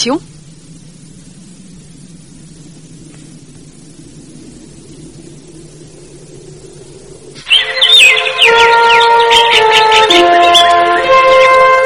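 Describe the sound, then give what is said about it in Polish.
Birds chirping in a rapid, bright, overlapping burst that breaks in loudly after a long stretch of low, quiet hum and lasts through the final few seconds. “Strasznie hałasujecie. Wypłoszyliście wszystkie ptaszki.”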